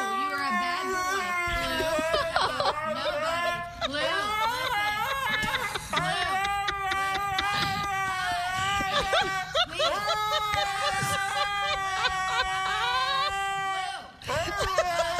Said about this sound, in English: A woman is disciplining her dog, Blue, for making a mess, so he drowns out the scolding by whining louder than she is.